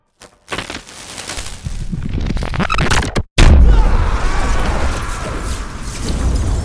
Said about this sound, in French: Mais le fait est que la pierre de Jovenia tomba et se brisa.